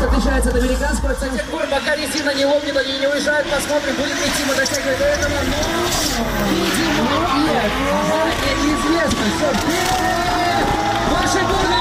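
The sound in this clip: Cars drift at a show held for a bikers' festival, with a constant loud engine roar and tires squealing in long wavering tones that rise and fall through the run.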